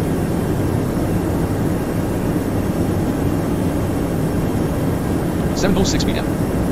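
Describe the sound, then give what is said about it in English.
Engine drone of a Boeing 737-800 airliner in a flight simulator game, a loud, steady low rumble that holds throughout, with a voice briefly cutting in near the end. “what aircraft are you flying? I am flying a 737-800.”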